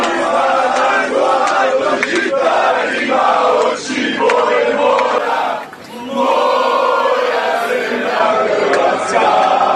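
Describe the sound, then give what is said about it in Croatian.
Croatian national team football fans chanting aboard a charter flight to Sochi: loud, continuous massed singing and shouting with two brief dips before the chant surges back. “Čarteri su prema Sočiju već krenuli, a navijači su itekako spremni. Evo i dijelića atmosfere s jednog od letova.”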